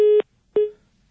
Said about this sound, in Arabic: كان المكالمة قطعت